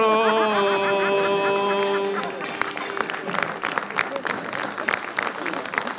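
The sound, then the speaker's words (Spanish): A sustained sung voice from four payadores, folk verse improvisers, ends abruptly. Audience applause then breaks out, with loose, uneven clapping and a few sharp claps standing out. “Ahí está, oye, fuerte el aplauso para estos cuatro payadores que nos mostraron un poco lo que era el pie forzado.”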